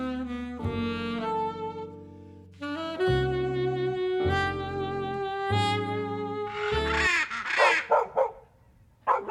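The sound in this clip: A small dog gives a few short, sharp yaps near the end, following long sustained tonal notes.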